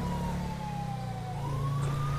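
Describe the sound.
A police car siren in a video game wails as a steady tone that sags slowly and then climbs again, over a continuous low engine rumble.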